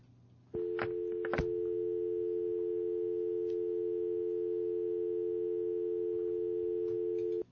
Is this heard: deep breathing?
no